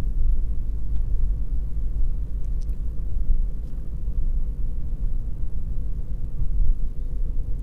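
A car drives along a road with a constant deep rumble of engine and tyres, steady and unbroken, with a few faint ticks and no voices.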